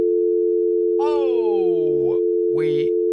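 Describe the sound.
Steady telephone line tone after a caller's line dropped, one unbroken hum running throughout while a voice talks over it.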